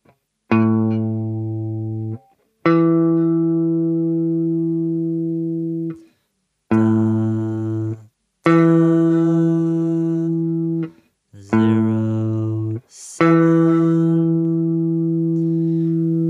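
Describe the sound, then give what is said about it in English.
A perfect fifth is played three times as pairs of buzzy, harmonic-rich electronic tones. Each pair is a shorter lower note followed by a longer higher one, and every note fades slightly as it sustains. “The next interval is 07, the perfect fifth.”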